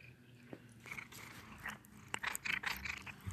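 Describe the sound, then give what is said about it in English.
A dog chews on a person, giving a few faint crunchy bites and clicks scattered unevenly, with a denser cluster of sharp gnawing sounds toward the end. “That was the sound of Breadstick chewing on me. I hope you heard it, listener.”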